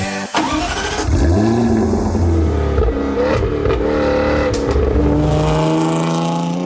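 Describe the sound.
A Jaguar car engine starts and revs with a loud, deep roar, rising and falling in pitch through several revs before settling into a steadier tone.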